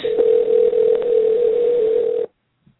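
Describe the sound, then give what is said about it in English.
Telephone ringing tone while a call is being dialed: one steady, mid-pitched electronic tone holding for about two seconds, then cutting off abruptly into silence. “All right, we're dialing.”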